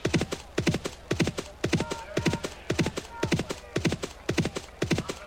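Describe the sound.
Racehorses gallop in a horse racing video game: many quick hoofbeats fall in steady rhythmic clusters, a continuous clip-clop pattern at moderate volume.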